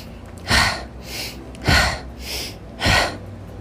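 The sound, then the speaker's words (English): Deep, forceful breathing during an energizing breathwork exercise: three strong, rushing breath bursts recur at a steady pace, each followed by a softer, quieter breath, with no talking. “keep breathing deeply and completely with those energizing inhales and forceful outhales.”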